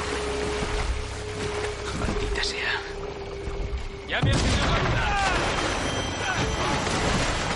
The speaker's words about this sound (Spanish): El barco ha recibido otro impacto. La ballena merodea por los bajos del barco haciendo que se mueva.